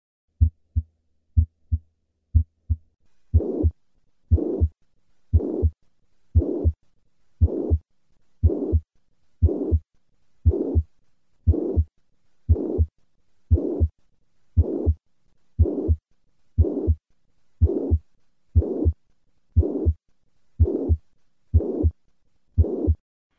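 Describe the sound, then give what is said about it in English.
Mitral regurgitation heart murmur through a stethoscope: many steady, regular low heartbeats, each carrying a plateau-shaped systolic whoosh. The first few beats are fainter and quicker. “To recap, the murmur of mitral regurgitation is systolic, maximum at the cardiac apex, and plateau-shaped in character. Listen once again to a patient with classic mitral regurgitation.”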